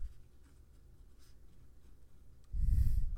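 Someone writing something down produces a faint, steady scratching that runs continuously, then gives way to a louder burst of low rumbling noise near the end.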